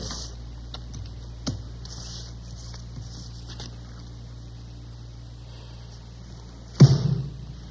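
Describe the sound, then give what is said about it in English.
Playing cards slapped down on a table during a card game: a light tap early on, then a sharp, louder slam with a dull thud near the end, over an otherwise quiet background with faint ticking. “You have to slam your cards down like that.”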